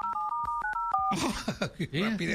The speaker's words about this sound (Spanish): Ay, espérame, déjalo, a ver, déjale, marco otra vez.